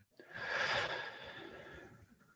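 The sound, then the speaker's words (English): One deep, slow breath is drawn during a guided session, a soft airy rush that swells over the first second and gradually tapers off, heard alone without any talk. “One more breath.”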